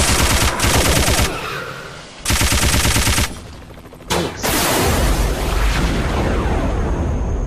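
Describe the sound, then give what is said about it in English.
Rapid machine gun fire in a video game comes in several long, loud bursts split by brief lulls. A final sustained barrage carries heavy, booming low rumbles. “Machine gun. That'll help me clear them out.”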